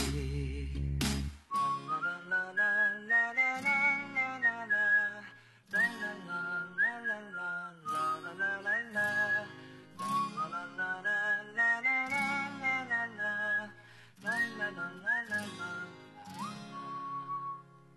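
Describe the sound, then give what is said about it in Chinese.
Bright whistling carries the melody of an upbeat pop song, repeating short phrases in rhythmic runs over a steady instrumental backing throughout. “好像跟着口哨的声音一起轻快起来了”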